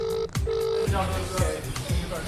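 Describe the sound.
A telephone rings with two steady electronic tones, each held for under half a second, before a voice begins talking over faint background noise.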